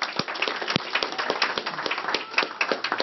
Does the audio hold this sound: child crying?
no